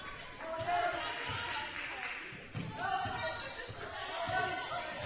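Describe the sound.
A basketball is dribbled on court during a women's game, its dull thumps repeating steadily beneath excited commentary and crowd noise.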